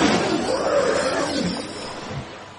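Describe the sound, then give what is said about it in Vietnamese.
A single deep, drawn-out roar of a giant thunder whale over the sea, loud at the start and slowly tapering as the growling rumble wavers in pitch. “Một tiếng gầm vang vọng khắp bầu trời, quanh quẩn trên bầu trời hải dương.”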